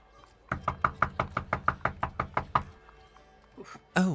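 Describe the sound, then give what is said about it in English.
Knuckles knocking hard on a surface: a fast, even run of many sharp, loud raps that stops abruptly, followed by a short, louder burst of sound at the very end. “Thought that was someone at my door. I was like, wait, what? I was knocking really hard. That kind of hurt my knuckles.”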